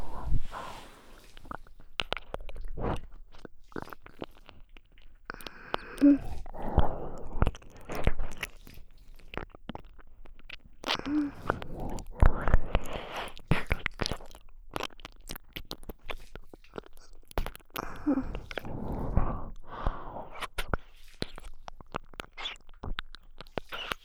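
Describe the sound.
Ear-eating ASMR mouth sounds in a role-play: continuous wet, crackling clicks, licks and smacks, dense and close, with no talking.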